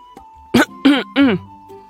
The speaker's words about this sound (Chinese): 展昭和白玉堂一起无端端的咳嗽了一声